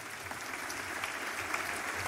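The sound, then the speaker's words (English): A church audience claps its hands in a soft, steady patter of many palms that stays even throughout. “Can you clap your hands to Jesus?”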